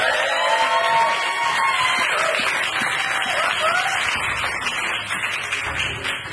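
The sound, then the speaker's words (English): Audience applause and cheering for a prize winner at a game event: dense, steady clapping with scattered whoops throughout, easing slightly toward the end. “Congratulations. Give it up for Dave, everybody.”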